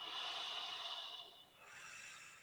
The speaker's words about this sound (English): Take a breath.